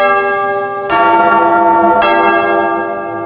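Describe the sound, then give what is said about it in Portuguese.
A church bell rings with two clear strikes, each followed by a rich, sustained metallic tone that hangs in the air between and after the blows. “Toca o sino, sacristão, de novo.”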